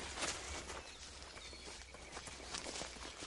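A woman runs toward a man through a forest, her footsteps faint and quick, with soft scuffing steps over a low background hiss.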